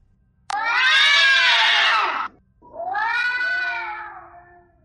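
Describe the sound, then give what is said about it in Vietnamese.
Loud cat yowling: two long, wavering, drawn-out cries. The first lasts nearly two seconds, and the second follows after a brief gap, a little lower and trailing off. No talk. “Ông quay đầu lại, giống y như mèo, âm thanh từ miệng phát ra.”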